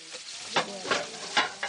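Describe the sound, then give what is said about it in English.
Fava bean rice boiling in a pot gives a steady low hiss broken by a few louder bubbling surges at fairly regular intervals. “This rice, the fava bean rice, is boiling now. You can listen to it.”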